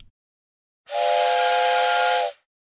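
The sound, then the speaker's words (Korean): A single long, steady whistle blast as a train arrives at a station platform, bright and tonal with a hissing edge, lasting well over a second and heard alone after silence. “지금 인천, 인천행 열차가 들어오고 있습니다.”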